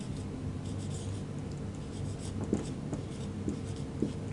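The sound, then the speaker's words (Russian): Handwriting with a pen: soft, continuous scratching strokes run throughout, with a few sharper, slightly louder marks in the second half. The sound is quiet and no one speaks. “А теперь пишем. У нас есть чужой участок. Так я пишу, смотрите.”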